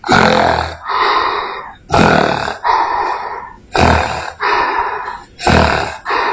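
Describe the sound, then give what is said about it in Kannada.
A voice imitates an old man snoring in his sleep: four loud cycles, each a harsh, rasping snort followed by a rougher, breathy rattle, in a slow, regular rhythm with no other sounds. “ಅಜ್ಜ ನಿದ್ರೆಯಲ್ಲಿ ಗೊರಕೆಯನ್ನು ಈ ರೀತಿ ಹೊಡೆಯುತ್ತಿದ್ದರು.”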